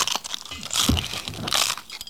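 Crunchy bites into food from a stack during a taste test: a couple of loud, crisp crunching bursts with quieter crackly chewing noise between them, with no talk.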